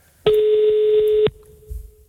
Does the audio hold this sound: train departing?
no